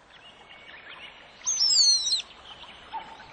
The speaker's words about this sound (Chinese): 这一天，整座小山兴奋的沸腾起来，到处叽叽喳喳，此起彼落。